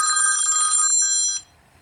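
A telephone ringing in one bright, high electronic burst of layered tones that cuts off abruptly after about a second and a half, leaving near silence.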